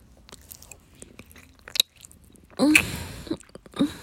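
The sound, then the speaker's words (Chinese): Crunchy biting and chewing of an ice pop, with a few sharp crunches over soft chewing, the loudest bite burst in the second half, no talk. “我吃冰棍的声音给你听”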